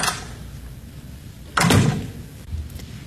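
A back door opening and closing as someone leaves for the night: a few wooden knocks and clunks, with one louder thump in the middle and softer knocks before and after, no talk.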